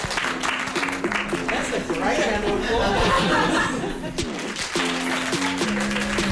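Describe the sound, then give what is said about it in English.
Applause from a packed crowd at the end of a class, with clapping mixed with chuckles, chatter and voices talking over it throughout. “round of applause.”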